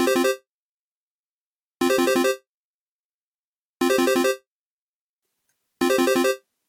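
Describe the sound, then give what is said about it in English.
A telephone line rings on a call across the Atlantic: four identical buzzy tone bursts, each about half a second long, repeat at even two-second intervals with silence between. “I think we are just about ready to dial across the Atlantic”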